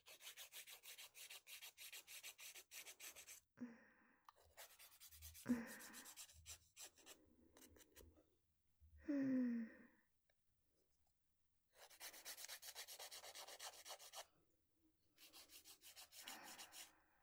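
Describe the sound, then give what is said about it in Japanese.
A nail file rasps quietly and dryly over freshly clipped fingernails, in several bursts of rapid back-and-forth strokes with short pauses between them. “それじゃあヤスリがけしちゃいますね。ヤスリがけしないと爪割れの原因になっちゃうんですよ。”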